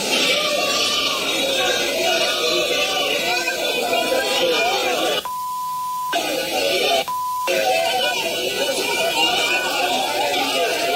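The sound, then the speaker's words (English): Crowd shouting and cheering as a man accused of pushing a woman holding a baby off a balcony is arrested, a loud, dense mass of yelling voices, twice cut by short electronic bleep tones. “That's the sound of the crowd cheering when he was arrested last week”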